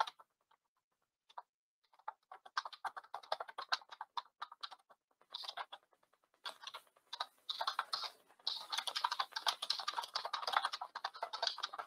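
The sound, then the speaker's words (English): Fingers typing on a computer keyboard, starting with scattered single key clicks and building into dense, rapid runs of tapping, with no voices. “So hang on, let me type that in.”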